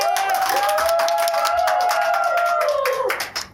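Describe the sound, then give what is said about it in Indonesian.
Clapping and applause welcome a guest, an alumnus and former student association chair, steady and dense across the crowd before trailing off at the end. “Give applause to Kale.”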